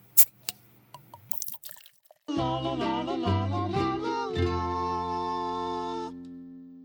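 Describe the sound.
A beer being cracked open and poured: a few crisp clicks and faint trickling drips, then music enters loudly and carries on to the end.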